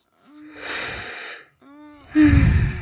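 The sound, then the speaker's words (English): Heavy breathing with gasping, partly voiced breaths: a few long, audible breaths in a row, the last one louder and harsher than the others. “I think you just could hear me breathe and get bored.”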